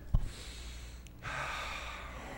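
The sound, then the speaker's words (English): A quiet deep breath: a brief sharp sniff near the start, then a soft, steady airy rush of breath lasting about a second. “Let's take a deep breath together, okay?”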